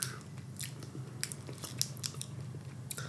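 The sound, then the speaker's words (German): Biting and chewing a protein bar with nuts, heard as quiet, irregular crunchy clicks and crackles repeating throughout, with no talking. “Also du hast direkt abgebissen.”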